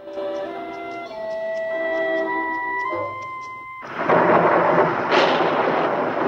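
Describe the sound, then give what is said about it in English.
Torrential rain pouring down, a loud, dense hiss and roar that sweeps in and holds steady after a stretch of soft music fades out. “Torrential rain pours down and Tia stands at a window watching it fall.”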